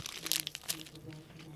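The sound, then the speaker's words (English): Several people bite into crispy, buttery hash browns at the same moment. A cluster of sharp, crackly crunches comes first, followed by a few quieter crunching chews. “So if their hash browns are solid, that can really carry a good breakfast. A good side can help a lot. Yeah. Mm-hmm. All right, boys, we're taking a bite at the same time.”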